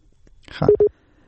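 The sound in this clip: Telephone line tone after a call is cut off: two short, steady beeps close together, overlapping a brief voice.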